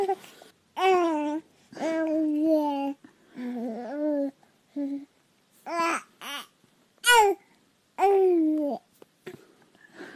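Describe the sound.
Baby babbling in many short, bright cooing syllables with a lilting, sing-song pitch, each burst separated by brief pauses, the infant voice clear and alone throughout.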